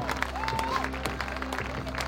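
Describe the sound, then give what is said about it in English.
A baseball crowd at TD Ballpark gives an ovation: steady, even applause and crowd noise that holds level throughout, with faint voices underneath. “Manoa gets a nice ovation from the crowd here at TD Ballpark”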